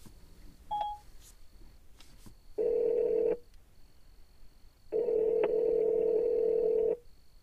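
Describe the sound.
A phone call is being placed: a brief electronic beep comes first, then two steady, mid-pitched ringing tones, the second noticeably longer, with quiet pauses between them.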